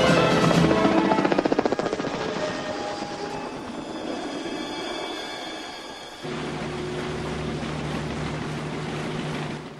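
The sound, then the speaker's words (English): A helicopter circles and then flies away, its rotor throbbing loudest at the start and then fading, after which a weaker, steady engine drone continues to the end. “After circling for a few minutes, the helicopter turns to leave, and Frank ventures out from his cover and watches it apprehensively.”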